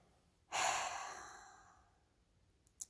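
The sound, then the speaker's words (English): Slow, relaxed breathing during meditation while sitting up in bed: one long, soft exhalation rises quickly and then fades gradually over about two seconds, followed by quiet and a couple of tiny clicks. “reunite with my breath. Notice the rise and fall of my chest, the rhythm of my breathing.”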